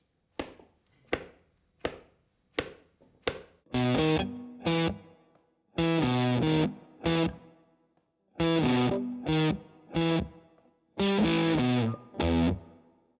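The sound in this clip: Fuzz-distorted electric guitar plays a rockabilly-style shuffle riff, opening with five short muted strokes, then choppy bursts of thick, buzzing sustained notes separated by brief gaps.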